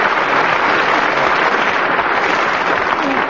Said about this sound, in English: But not quite as much applause as I got. Still not too bad.